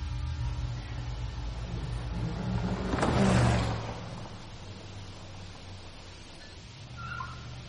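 A car engine swells into a low, rumbling rev as the car pulls up, then eases back down to a quieter, steady hum.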